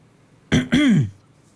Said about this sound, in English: make her way down towards the open space and just clears her throat.